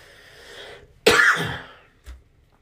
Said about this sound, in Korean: 갑자기 사례가 걸렸네요.